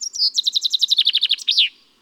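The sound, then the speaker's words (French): A common chaffinch sings its repetitive song alone: a few high opening notes, then a rapid run of many clear chirps stepping down in pitch, ending in a short downward-sweeping flourish. “Le pinson des arbres répète inlassablement sa chanson, plus de 1000 fois par jour.”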